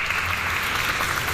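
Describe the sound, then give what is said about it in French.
Recorded applause played by an automated phone message: a short, dense burst of clapping lasting about a second and a half, with no talk over it. “Félicitations. Oui, alors ? Vous y êtes arrivé. Mais arrivé à quoi ? Je fais quoi ? Nous vous applaudissons.”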